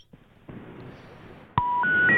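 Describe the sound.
Telephone tones after a number is dialed: a sharp click, then three steady electronic beeps, each one stepping higher in pitch, following a stretch of low hiss.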